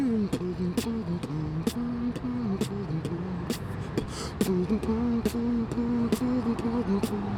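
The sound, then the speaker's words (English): A man beatboxes the French national anthem, humming the melody over steady vocal drum clicks and snare-like bursts. The beat is regular and fairly loud, and the voice imitates percussion throughout. “What you're hearing is beatboxing of the French national anthem by this guy that we just met,”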